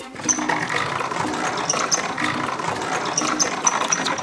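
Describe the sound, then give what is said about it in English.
A tombola drum full of raffle tickets spins for a prize draw, giving a continuous whirring rattle with repeated light clicks and swishes throughout. No voices. “I'm going to give it one more spin. Yeah. Let's spin the tombola. The iPad didn't work. It's time for me to spin the tombola.”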